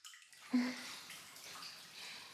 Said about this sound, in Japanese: ちょうどいいお湯加減。あなたが入れてくれたんだよね。